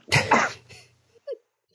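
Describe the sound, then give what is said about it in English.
Coughing after choking on tea: a loud, harsh cough burst that breaks into a second push, then a softer short cough, each followed by a quick gap. “Excuse me. Oh, choked on tea.”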